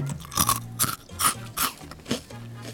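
Crunchy chewing of slightly spicy cheeseburger-flavoured potato stick snacks, heard as several sharp, crisp crunches at irregular intervals with quieter chewing between them and no talking.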